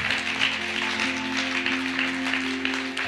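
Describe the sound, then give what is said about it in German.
Applause from a church audience during a healing service, a dense steady patter of clapping over sustained keyboard chords, lasting the whole clip. “Lass uns mal Jesus einen Applaus geben.”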